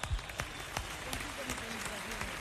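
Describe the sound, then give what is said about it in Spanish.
Crowd applause for the Sonora Ponceña salsa orchestra at its 55th anniversary celebration: a steady wash of many people clapping, fairly loud, with a voice talking over the clapping. “¡Aplauso para esta orquesta!”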